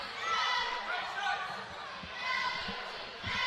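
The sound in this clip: A basketball dribbled on the court during a Benton versus Mountain Home game: a few dull, low thumps bounce at an uneven pace beneath steady talk.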